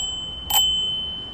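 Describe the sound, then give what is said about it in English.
A bike-share bicycle bell on city streets in Seattle gives a single bright ding, its clear metallic tone ringing on briefly over a quiet background hiss. “That's the sound of one of the bells from a new fleet of bicycles rolling down Seattle's streets today.”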